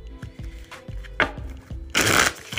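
Playing cards being shuffled: a few short, crisp bursts of card noise, then a longer, denser riffle near the end, heard alone without voices.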